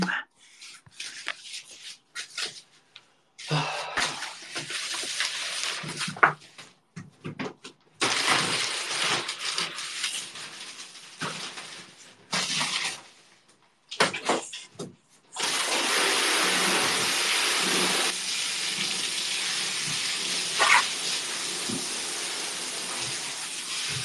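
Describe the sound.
Water gushes from a tap to fill a bath, a broad hissing rush that starts and stops in several bursts before running steadily and loudly through the second half.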